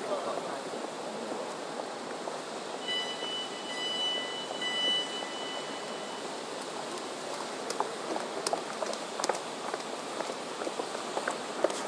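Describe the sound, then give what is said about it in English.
Footsteps of many people running, a dense, steady patter of feet that continues evenly throughout, with scattered sharper slaps toward the end. “Lots of people running now.”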